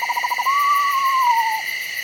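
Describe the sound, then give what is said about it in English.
A pair of screech owls call back and forth in an undulating trill: a quick pulsed burst, then a smooth, sustained whistling tremolo that sags slightly in pitch, over a steady background hum of insects. “It's a pair of screech owls, on the other hand, calling back and forth to each other, which produce this hypnotic, undulating trill.”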